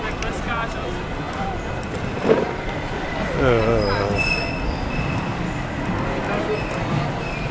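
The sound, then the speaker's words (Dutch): A fire engine siren wails as it drives toward a street demonstration. Its harmonic tone swells in the middle over continuous traffic rumble, with a sharp knock shortly before, and people talking in the street. “De sirene is van een brandweerauto. Die rijdt in de richting van de demonstratie.”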